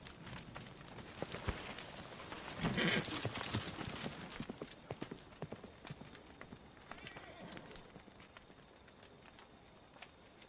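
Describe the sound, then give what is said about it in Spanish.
Hooves of a horse ridden out of a courtyard clip-clop in a quick, uneven run of sharp knocks, with a denser scuffling stretch in the middle and other sounds layered underneath. “Ella se pone la capucha de su capa, monta y sale del patio.”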